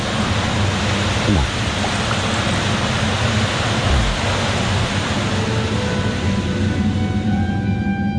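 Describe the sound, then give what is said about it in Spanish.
Water gushing through an underground tunnel as a radio drama effect: a loud, steady, hissing roar that holds evenly from start to end, with no break. “¡Es agua! ¡Agua! ¡Es agua, Axel! ¡Es agua! ¡Agua!”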